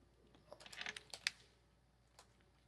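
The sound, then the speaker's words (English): Faint keystrokes on a computer keyboard, a quick burst of several light clicks followed by a pause and one last tap, all quiet against a low background hiss. “I just typed Holy Grail. I need to type Monty Python and the Holy Grail.”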